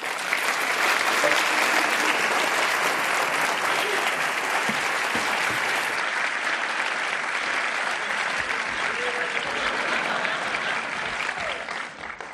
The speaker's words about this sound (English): ladies and gentlemen, please join me in a warm California welcome for David Brooks.